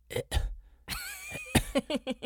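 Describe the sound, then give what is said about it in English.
A human voice imitates a cat coughing up a hairball. It starts with a couple of short hacking bursts, then a drawn-out voiced gagging sound, then a quick series of rhythmic retching hacks. “are you about to coughing up a hairball? You about to cough up a hairball”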